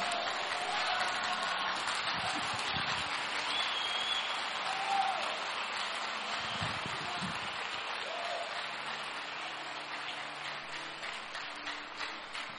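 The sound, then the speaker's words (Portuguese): Applause from an audience at a charismatic religious seminar: dense, continuous clapping that holds steady for the whole stretch with no clear breaks, fading only slightly toward the end. “Forte esse aplauso à palavra do Senhor.”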